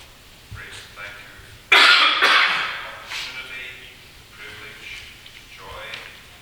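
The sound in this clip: A man clears his throat and coughs as a Bible study gathering turns to prayer. One loud, harsh burst comes first, followed by weaker rasping clears, with low talk in the background.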